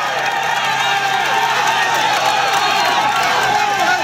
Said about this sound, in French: Et là, effectivement, il y a énormément de monde et ça encourage le coureur équatorien. Vous entendez peut-être le bruit derrière. On va monter l'ambiance, tiens, pour que vous en profitiez.